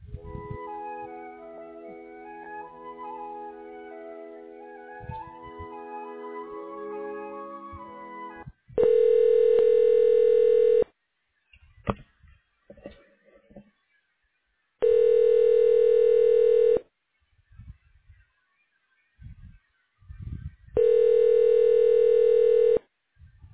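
A telephone line tone plays while a call is being transferred: three long, steady, mid-pitched buzzing bursts separated by silent gaps. A tonal musical passage comes before them, and no one speaks.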